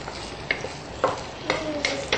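Two diced tomatoes stirred as they fry in a pan: a soft, steady sizzle broken by five scraping strokes of the spoon at fairly even intervals.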